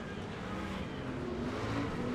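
Racing truck engines drone on a race track as the trucks jostle and slow each other, a continuous, fairly faint roar with no distinct passes.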